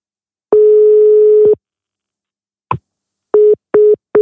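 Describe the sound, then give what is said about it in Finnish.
Telephone ringing tone heard while placing a call: one steady electronic tone lasting about a second, a silent gap and a click, then three short beeps of the same pitch. “Mä soitan sille. Kyllä sen pakko sen rupeaa vastailemaan.”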